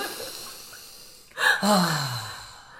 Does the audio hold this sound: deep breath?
yes